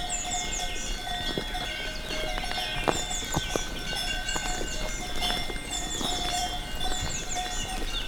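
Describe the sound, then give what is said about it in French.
Bells worn by grazing Gascon cows in a small valley of the Pyrenean foothills, heard while walking: continuous bright, overlapping tinkling and clanking at a low, even level, with a few sharper knocks. “Vous marchez accompagné par les sonailles, les vaches gasconnes.”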